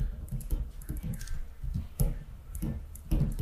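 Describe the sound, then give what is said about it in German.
A pen writing on a small slip of paper for a famous-person guessing game makes a run of short, scratchy strokes and taps at a steady pace. “dann schreibe ich mal was kurz bei dir auf den Kopf quasi. Also auf den Zettel und dann auf den Kopf.”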